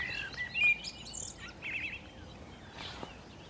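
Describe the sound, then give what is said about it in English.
Blackbird singing from a branch above a marsh drain: faint, varied whistled phrases over a steady background hiss. “there's a blackbird just sitting obligingly out on a branch singing for us.”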